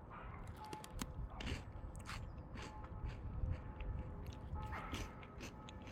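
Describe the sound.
Faint, irregular crunching and biting of chocolate-coated snacks being tasted, with many small crisp clicks scattered over a soft low rustle.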